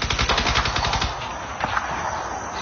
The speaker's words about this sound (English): Where do you think the firing's at? I'd say a bit west of the village, Brother Mark, maybe by the river.